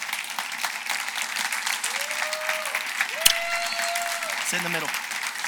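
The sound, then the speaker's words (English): A church audience applauds to welcome a couple to the front, a steady patter of clapping that runs throughout under a speaking voice. “Let's give them a welcome, a Vamos a darle un aplauso.”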